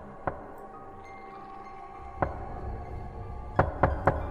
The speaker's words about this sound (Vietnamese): Tiếng gõ cửa vẫn vang lên ở bên tai không dứt, lượn lờ trong hành lang của bệnh viện.